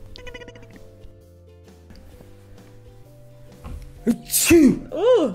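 A loud sneeze bursts out near the end, coming in quick explosive spurts after a few seconds of faint, quiet sounds, with no talking heard.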